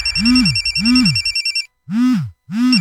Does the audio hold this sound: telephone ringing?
yes